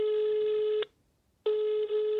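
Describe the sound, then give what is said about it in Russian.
Ringback tone of an outgoing telephone call: a steady, buzzy mid-pitched tone that cuts off for a short silence, then sounds again in the same even way. “Я позвонила отцу Дмитрию, чтобы узнать все подробности из первых рук.”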